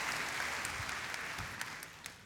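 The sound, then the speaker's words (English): Steady audience applause welcoming a speaker to the stage, a dense, even wash of clapping with a few sharper claps standing out near the end. “So would you put your hands together and give Dave Stone a warm welcome?”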